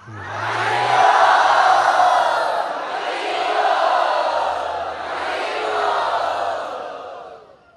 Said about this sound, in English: Let us thank them by loudly chanting.